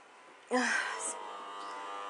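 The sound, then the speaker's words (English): An air conditioner starting up in a bedroom, with a sudden onset that settles into a steady, even hum carrying a faint tonal whine that continues to the end. “and the delightful sounds of the air conditioner. Oh, soon it will be cool in here.”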